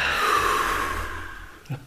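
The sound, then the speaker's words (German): A slow, breathy exhale during a relaxation breathing exercise, a soft rushing airflow that gradually thins and fades over about two seconds, ending with a faint breath sound. “Nicht einatmen. Einatmen. Und ausatmen.”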